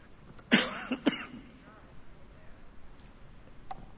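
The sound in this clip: Coughing and throat clearing: two sharp, harsh coughs close together near the start, then near quiet with only faint low rumble.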